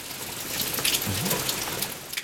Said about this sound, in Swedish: Nu regnar det!